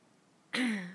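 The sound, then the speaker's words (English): A voice imitates a woman clearing her throat: after near silence comes one short, raspy, voiced burst whose pitch sinks slightly as it fades. “And she cleared her throat.”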